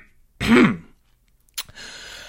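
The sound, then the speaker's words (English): A man clears his throat once, a short, rough, guttural rasp that comes loud and alone. A brief click and faint rustle follow after a pause. “cleared his throat again.”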